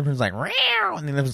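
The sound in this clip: A voice imitates cats fighting with yowling, meow-like cries whose pitch climbs and then drops, surrounded by brief talk.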